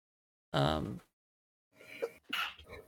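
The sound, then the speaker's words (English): One sharp, voiced sneeze bursts out alone, then after a short pause people talk. “Did you sneeze again? Bless you.”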